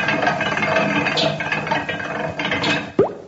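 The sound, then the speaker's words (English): A broken-down machine being cranked by hand in a comedy sketch: clattering, ratchet-like mechanical rattling with gear noise, ending in a short, sharp rising squeak. “The joke machine's broken down. What are we going to do now? Try cranking the machine by hand.”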